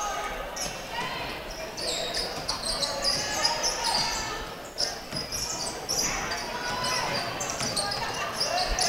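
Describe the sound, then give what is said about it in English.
Basketball dribbled across the court during a game involving Athens, with steady repeated bounces under continuous play-by-play commentary and crowd noise. “Left-hand dribble across the court.”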